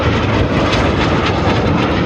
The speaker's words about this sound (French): Des avions qui plongent, qui tourbillonnent, qui passent à toute vitesse dans le ciel, lâchant parfois des fumigènes bleus, blancs, rouges.